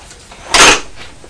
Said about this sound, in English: She just closed the white door and gone inside.